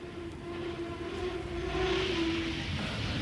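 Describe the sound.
Train arriving at a metro station: a steady low rumble carries a sustained whining tone, growing louder toward the end, with no voices.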